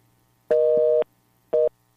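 A telephone busy tone after a dropped call: two steady, mid-pitched beeps, the first about half a second long and the second shorter and cut off, with a faint low hum in between.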